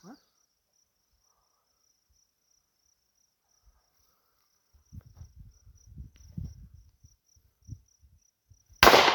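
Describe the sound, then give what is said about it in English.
A gunshot is fired outdoors during a hunting outing. A single loud bang comes at the very end, after a long quiet stretch with crickets chirping and a few low murmured voices. “Did hit it, though. Bullets are loud.”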